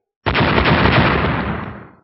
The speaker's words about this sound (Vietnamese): Chốc lát sau, một chuỗi âm thanh nổ tung liên tiếp vang lên.